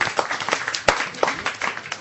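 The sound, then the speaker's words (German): A short, sparse round of applause for a studio guest, a few people clapping in uneven, scattered claps with one sharper clap standing out, fairly quiet. “Kleiner Applaus.”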